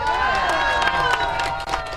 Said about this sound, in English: A thrilled crowd at the Irish Mossy Museum in Scituate was challenged to lift a 254-pound rock shipped here from Ireland. A couple spectators got it done.